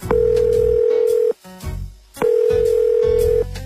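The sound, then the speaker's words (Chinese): Telephone call tone while placing a call home: two long, steady, pure beeps of about a second each, separated by a pause filled with low background noise. “哎，你们别打扰我，我给家里打一电话。”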